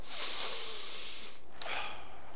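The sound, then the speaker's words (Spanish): A deep breath drawn in, a loud airy rush of air lasting over a second, followed by a shorter breathy burst. “Ahora respira profundamente.”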